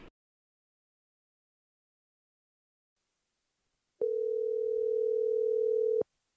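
A telephone dial tone sounds while a call is being placed: a single steady, unbroken low hum lasting about two seconds after a long silence, clear and alone, ending abruptly.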